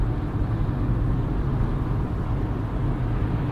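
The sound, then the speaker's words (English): A car driving on a highway near Everett, Washington: a constant, loud low road and engine rumble with airy noise above it, steady from start to finish with no distinct events. “Highway run. Driving home from beautiful Everett, Washington.”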